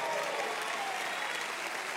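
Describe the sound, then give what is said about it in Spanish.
Congregation applause at a religious service, an even wash of dense clapping, fairly faint, that continues without a break for about two seconds. “Alguien dele un aplauso al Señor.”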